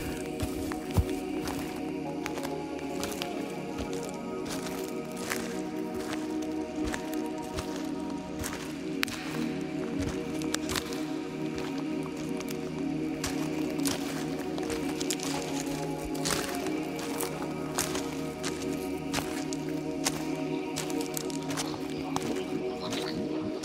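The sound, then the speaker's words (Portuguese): Footsteps descending carefully through a disguised corridor beneath a pyramid, flashlights in hand; many steady, squishing and crackling steps continue throughout. “Descemos cuidadosamente pelo corredor disfarçado, nossas lanternas iluminando o caminho à frente.”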